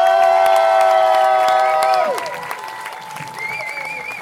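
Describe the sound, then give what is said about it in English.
Audience applause and cheering for Eddie Izzard at Crooks Social Club: a steady wash of clapping and cheers with voices mixed in, loud at first and easing slightly after about two seconds. “Please put your hands together for Eddie Izzard!”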